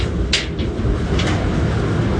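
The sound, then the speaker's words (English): A clothes dryer door opens in a Navy ship's laundry. The dryer holds about 100 pounds of laundry. Two brief latch clicks cut through a loud, steady machinery rumble. “And right now I'm opening the dryer. The dryer holds about 100 pounds of laundry.”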